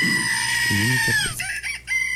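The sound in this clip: A rooster crows as a farm animal sound effect: one long, loud call with a wavering pitch that drops at the end, followed by a few short, broken notes.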